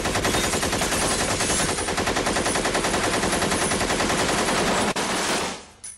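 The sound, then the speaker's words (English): A Jeep-mounted machine gun fires in a rapid, evenly spaced stream of loud shots. The volley carries on almost without a break, then cuts off and fades out near the end. “The Rajneeshis also began driving around town in a Jeep with a machine gun on the back of it.”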